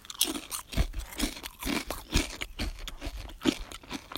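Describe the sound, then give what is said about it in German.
Someone eats crunchy food, with many irregular crisp crunches of chewing and biting packed closely over a few seconds and no talk. “sorry dafür auf jeden Fall. Ich weiß, es ist nicht so nice, während einer Folge zu essen”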